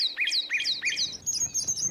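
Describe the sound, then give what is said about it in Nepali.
Birds chirping beside a mountain lake, with a quick series of bright, high, downward-sweeping chirps that repeat in a steady rhythm, followed by softer, more varied calls and faint background noise. “Kanchan पानी सिरसिरे बतास र चराहरूको चिरबिर”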